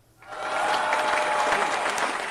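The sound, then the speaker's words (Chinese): An audience applauds after a storytelling performance. The clapping starts abruptly and stays dense and even throughout. “同样把掌声送给给大家带来故事的文玉晨”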